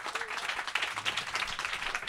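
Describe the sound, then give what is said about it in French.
Audience applause at a live show: many hands clap together in a dense, crackling burst that stays fairly even from start to finish. “applaudissez-le encore”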